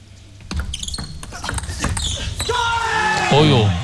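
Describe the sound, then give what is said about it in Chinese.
A table tennis ball is served and hit during a match in the fourth game between Wang Chuqin and Sora Matsushima. A few crisp, light taps of the ball are heard, followed by rising voices and talk. “现在王楚钦暂时落后2分，2-4，松岛辉空发球。”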